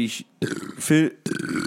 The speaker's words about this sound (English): that burp was sponsored by White Claw.